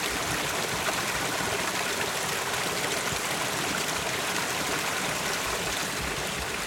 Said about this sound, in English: The water comes over a concrete weir.